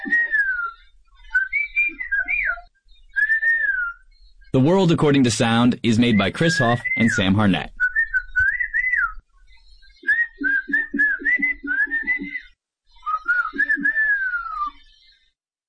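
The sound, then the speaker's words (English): Whistled language, used to talk over long distances, sounds as a series of high rising and falling whistled phrases separated by pauses, with a stretch of talking partway through. “They help people communicate over long distances, far longer than you could reach with words. A good whistler in the right conditions can talk to someone up to 3 miles away.”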